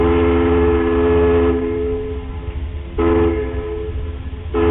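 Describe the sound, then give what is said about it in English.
A ferry's horn signal sounds on Puget Sound as the boat comes into dock: one long, loud, chord-like blast, then two short blasts, heard alone with no voices. “That little melody was the sound of a ferry coming into dock, and it had a name.”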